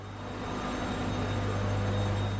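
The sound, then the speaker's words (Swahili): Fast-spinning engines in the number five generator room of a geothermal power plant at Olkaria make a steady machine drone with a sustained tonal hum that grows slightly louder toward the end. “Katika chumba hiki chenye mtambo wa nishati nambari tano kuna injini zinazozunguka kwa kasi.”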